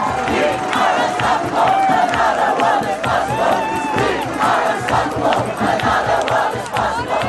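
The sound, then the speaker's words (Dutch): Demonstrators at a protest sing and chant together, a dense wall of crowd voices rising and falling in rhythmic unison. The sound stays loud and steady from start to finish. “Er wordt altijd gezongen bij die demonstraties. Muziek speelt een rol.”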